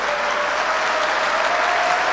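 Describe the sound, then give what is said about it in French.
An audience applauds with a loud, continuous roar of clapping hands that holds steady throughout, with a faint murmur of crowd voices blended underneath. “Alors, applaudissez à la Côte d'Ivoire.”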